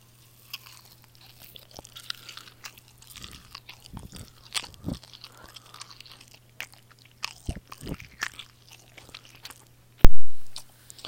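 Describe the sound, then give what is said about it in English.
Crunchy bites and wet chewing of a convenience-store hamburger, close and quiet, with many small crackles and squishes and one loud, sharp bite near the end. “I'm gonna start the ASMR segment right now. Hamburger bite ASMR.”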